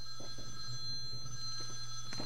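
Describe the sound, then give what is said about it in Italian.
A telephone rings faintly in a few short bursts over a steady low hum, with no talk. “Un attimo solo ragazzi, mandiamo un po' di musica e poi vediamo, perché c'è il telefono che molto probabilmente qualcuno sta chiamando.”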